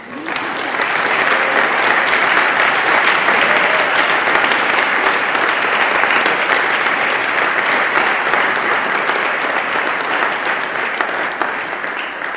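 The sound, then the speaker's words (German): A conference audience gives a long round of applause: a loud, dense, unbroken wash of clapping that holds steady and eases off only slightly near the end. “Die haben einen Beifall verdient.”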